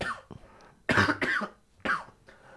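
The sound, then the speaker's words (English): A man gives a harsh, deep cough: three loud coughs in quick succession after a softer short sound. “that's such a dad cough.”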